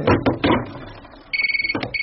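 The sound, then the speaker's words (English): A telephone ringing with a fast warbling electronic trill starts partway through, after some brief rustling and thumping, and continues to the end. “Jeffrey, why don't you answer the phone?”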